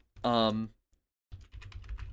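Rapid clicking of typing on a computer keyboard, a dense run of light irregular taps. A brief tonal sound comes first, then a pause before the keystrokes begin.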